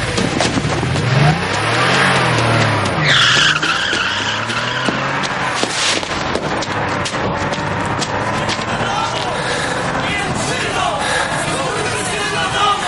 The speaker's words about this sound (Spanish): se montan en el coche y se marchan justo antes de que les dé alcance.